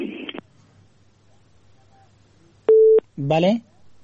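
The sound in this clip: Telephone tone heard after a call-in listener's line drops: a single short, steady mid-pitched beep, with brief bursts of speech before and after it.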